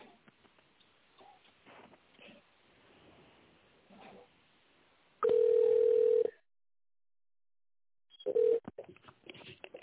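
While a call is transferred to the accounting department, faint muffled line noise gives way to one loud, steady telephone tone lasting about a second. Silence follows, then a short beep amid brief rustling sounds.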